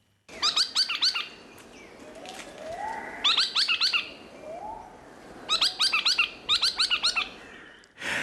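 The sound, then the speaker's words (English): Ringing calls of a logrunner, a ground-feeding bird of eastern Australian rainforest, come in four loud bouts of rapid repeated notes. Softer, lower notes sound between the bouts. “That's because the chowchilla is the northern relative of the much better known log runner, which sounds like this.”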